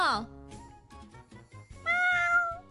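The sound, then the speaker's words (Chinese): A shop cat meows: a short falling meow at the very start, then a longer, louder, steady-pitched meow later, with softer sounds in between. “哇，你只咪咪啊，而家变咗镇店之宝、啊。 系啊，佢而家咧变咗明星猫”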